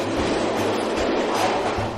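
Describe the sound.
A subway metro train rides between stations with a steady, loud, even rumble of wheels and car body and a faint low rhythmic clatter underneath, with no voices.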